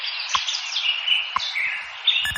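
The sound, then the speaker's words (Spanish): Birds chirping at dawn in Madrid. A continuous, busy chorus of high twittering calls fills the whole stretch, with a few sharper chirps standing out at moderate volume. “Pues ya están por aquí los pajaritos de Radio Hora, que nos indican que amanece oficialmente en Madrid en estos momentos.”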